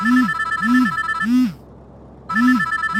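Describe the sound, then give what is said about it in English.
A phone ringtone signals an incoming call on a messaging app. It plays a repeating electronic tone, each ring a short rising and falling chirp with bright overtones, heard alone. Three rings come in steady rhythm, then a brief pause, then it resumes. “Wait, who's calling me on Signal?”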